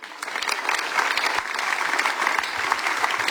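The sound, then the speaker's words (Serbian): An audience applauds an all-women band at a live performance. Dense, steady clapping quickly builds to full strength and carries on evenly throughout. “Aplauzno pozdravite projekt, dakle, sastav projekt band plus minus 60 i leti vrime.”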